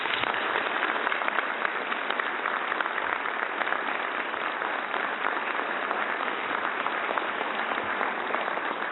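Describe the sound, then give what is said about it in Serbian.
Audience applause at an awards evening: thick, even clapping that continues at a steady level for about nine seconds, with no speech. “a ja bih vas zamolio i da jednim isto tako gromoglasnim aplauzom pozdravimo Čika Brankovu veliku podršku u životu, našu divnu i dragu baka Jovanku.”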